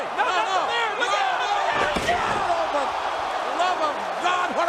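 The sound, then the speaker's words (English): A single heavy slam of a body hitting the wrestling mat as Kane chokeslams Matt Hardy at SummerSlam 2004. It lands once midway through a busy wash of crowd noise, with voices talking over it. “What a choke slam! Will it be it? The count! Oh my God! Kane has beat Matt Hardy.”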